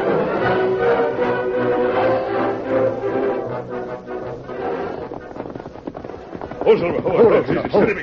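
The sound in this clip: Hoofbeats of horses named Silver and Scout galloping away, a loud, busy patter of clip-clop beats that thins toward the middle and swells again near the end.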